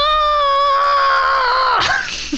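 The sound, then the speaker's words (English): A performed scream of terror, voiced by a player for a bard character in a tabletop game: one loud, sustained, high scream that breaks off abruptly into a rough, fading gasp. “Your screams of terror do magical psychic damage to the people around you.”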